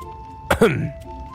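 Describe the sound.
A man in a Chinese audio drama gives a single short cough or throat-clear: a sharp burst, then a brief rough voiced tail, over a faint steady tone.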